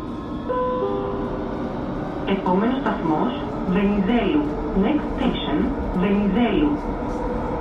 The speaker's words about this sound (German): Ich bin in der Metro von Thessaloniki. Sie fährt erst seit ein paar Monaten.